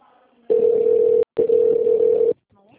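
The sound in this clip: Telephone tones heard after pressing two for support in a phone menu: two long, steady, low-pitched tones separated by a brief gap, with faint voice sounds before and after.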